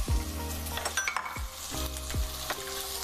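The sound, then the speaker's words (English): Sliced onions sizzle steadily in hot grease in a frying pan, with a few knocks and scrapes of stirring over the constant crackle. “So now that our grease is hot, we're gonna add our onions and grill our onions.”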